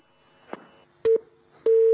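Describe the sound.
Phone-line tones mark an incoming call on a television channel's call-in program. A short, steady, low beep comes first, then a longer sustained tone after a brief pause, with faint clicks before them.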